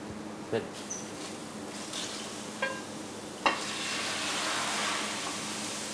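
Sizzling in a pan seasoned with wholegrain salt and a pinch of chili during a Sicilian cooking demonstration: a low hiss with a few soft clicks, then a small ladle of water hits with a sharp burst and the sizzle swells louder and steadier.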